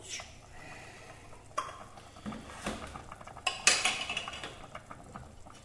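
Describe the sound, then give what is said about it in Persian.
A can of beans being opened with faint metallic clinks and scraping, a few small knocks and a brighter rattle near the end, all at low level. “لوبیا رو درش چرا باز نمیشه؟ باز شد.”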